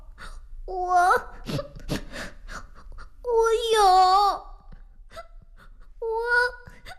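A young schoolchild cries and wails in three drawn-out, high-pitched bouts, with short breathy sobs and gasps between them.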